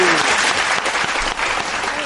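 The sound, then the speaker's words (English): Applause from an evening event audience welcoming a guest, a loud, dense and steady clapping that holds throughout. “Please say welcome and big round of applause to Sasha Star.”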